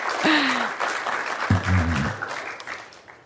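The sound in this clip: Audience applause welcoming a speaker at a Commonwealth Club event: steady clapping that swells early and then gradually thins, with a voice briefly audible over it.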